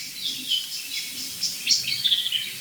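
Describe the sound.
Blackbird and song thrush singing: bright, high chirps and whistled phrases repeat in quick, uneven bursts over a faint low background.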